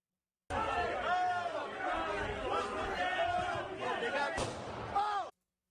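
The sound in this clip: A single sharp gunshot fired by a police officer, recorded on bodycam, cracks near the end amid continuous shouting and chatter from several voices.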